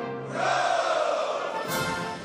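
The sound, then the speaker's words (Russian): Soldiers shout a massed 'Hurrah!' in one sustained, loud collective cry that breaks into the Life Guards Jäger Regiment's Russian military march. “Музыка марша егерского полка дважды неожиданно прерывается криками «Ура!».”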